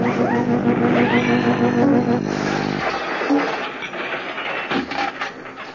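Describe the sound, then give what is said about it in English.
A machine-breaking-apart sound effect: a loud, harmonic mechanical grinding whine that suddenly cuts off and gives way to a rougher, noisier clatter that fades unevenly. “Oh no! The whole machine's breaking up!”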